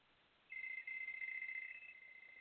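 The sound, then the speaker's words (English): A phone ringtone sounds alone: a steady electronic tone starts after a brief near-silent moment and holds at an even pitch to the end. “Sorry, my mom's calling me. I'll be right back. What are you at work? Oh, man, what is this? What is this? That sounds like one of my buddies calling me”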